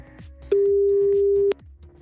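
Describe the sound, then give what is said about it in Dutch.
A telephone busy signal sounds while calling a doctor's office, a single steady mid-pitched tone lasting about one second that stands loud over faint background noises. “Het is altijd druk, hè? Nou, dit kan wel eventjes duren.”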